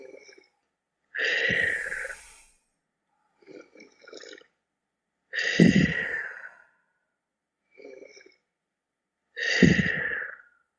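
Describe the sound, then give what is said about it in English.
Three deep breaths are taken at the start of a therapy session. Each is a long, loud, breathy exhale, spaced about four seconds apart, with softer, shorter breath sounds in the gaps. “let's both of us take three deep breaths.”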